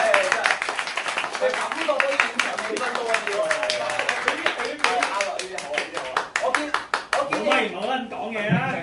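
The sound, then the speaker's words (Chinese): An audience claps throughout at a live recording of a Hong Kong morning show: dense, continuous, many-handed clapping with steady loudness, while voices talk over it. “俾啲掌声我啦，成场都嚟。”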